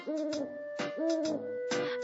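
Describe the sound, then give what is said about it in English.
Owl hooting: a few sustained, low, steady hoots with a soft, breathy quality, repeating in an even rhythm with no voices. “Owl.”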